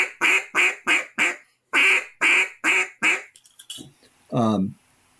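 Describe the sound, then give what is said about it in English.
Quacks from a handheld duck hunting call sounding a greeting call: two strings of four evenly spaced, nasal quacks, loud and rhythmic, followed by a few faint clicks and a lower, drawn-out raspy note. “you start with the quack, and then a greeting call is just a string of 3 or 4 quacks.”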